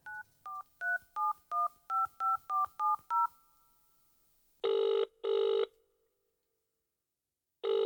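Touch-tone dialing of an unknown phone number read from a slip of paper: about ten quick two-tone beeps in an even rhythm. A short pause follows, then buzzy ringing pulses as the call goes through.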